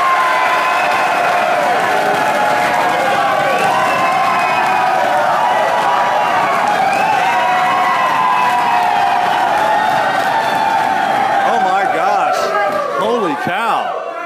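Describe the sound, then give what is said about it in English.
Live studio audience of UConn football fans cheering on the University of Connecticut campus: a loud, continuous roar of shouting and whooping that holds steady throughout and eases slightly at the very end. “That is some energy. That is some high energy here at UConn. Oh, my gosh. The football Huskies, fantastic audience, thank you guys so much.”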